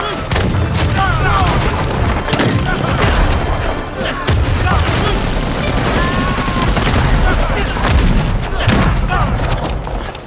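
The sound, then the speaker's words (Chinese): A battle rages with gunfire and explosions: many sharp cracks and heavy booms over a continuous loud roar, with men shouting amid the firing. “给我打！ 司马长，带人把机枪手给我干掉。 是， 司马给我来。 火力掩护。”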